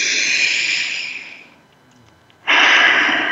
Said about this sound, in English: So let's breathe that in.